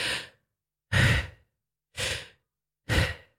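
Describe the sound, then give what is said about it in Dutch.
Deep breaths drawn during a breathwork session: four loud, breathy rushes of air, each about half a second long, spaced roughly one second apart in an even rhythm with silence between them and no talking. “En ga je dus met z'n allen ademen. En dat is dan vaak een soort van inadem, zo.”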